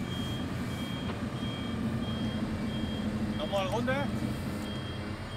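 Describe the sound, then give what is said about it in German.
A truck used to carry medical supplies, tents and generators drives with a steady engine rumble while a reversing alarm beeps repeatedly at a high, even pitch. A voice speaks partway through. “Mit dem LKW können Sie medizinisches Material transportieren. Zelte oder Stromgeneratoren. Das Auf- und Abladen üben Sie regelmäßig. Ich fahre jetzt mal gerade.”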